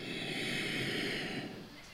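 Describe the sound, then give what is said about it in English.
A person draws one long, deep breath in through the nose, a steady airy rush that holds for nearly two seconds before tapering off softly at the end. “Very nicely inhale”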